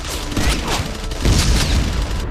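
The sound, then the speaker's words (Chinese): Battle gunfire opens up to cover an infantry assault on a bridge. It is a dense, continuous barrage of overlapping bursts and deep booms with no clear gaps, and it grows louder about halfway through. “开火，掩护二六八团进攻。开！”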